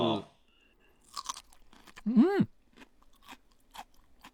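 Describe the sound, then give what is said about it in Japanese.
Crisp, crunchy chewing of Rawan butterbur, a crunchy giant butterbur stalk, dressed with mayonnaise: a few sharp crunching bites with quieter chewing between, and a brief voiced murmur partway through. “ラワンブキのシャキシャキした食感、マヨネーズの味ととっても合いますね。”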